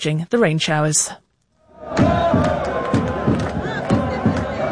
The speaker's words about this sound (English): That is the sound of Iraq fans celebrating, even though they lost to France